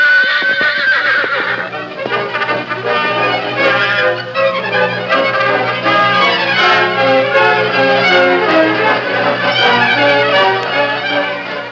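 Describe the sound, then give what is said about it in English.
Horses neigh and whinny loudly and shrilly, the calls overlapping into a dense, continuous sound that lasts the whole clip. “Reed City when the three horsemen reined up in the alleyway at the rear of the hotel”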